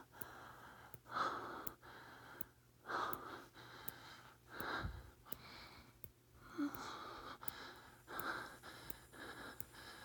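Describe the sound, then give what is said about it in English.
Fast, heavy breathing in an intimate setting: many quick breaths in a rhythm that keeps repeating, some sharp and gasping, others breathy and soft. “Oh, my breath is coming so fast now.”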